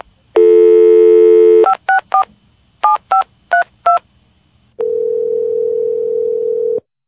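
Telephone dialing while calling a dad: a steady dial tone, then six short touch-tone beeps in quick pairs, followed by a long, steady, lower line tone that ends abruptly.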